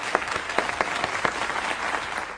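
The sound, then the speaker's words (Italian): Applause for an athletics club at a sports awards event, a steady dense clapping from a crowd with sharper individual claps standing out, continuous and fairly loud throughout. “l'Atletica Firenze Marathon, e quindi un applauso anche per loro.”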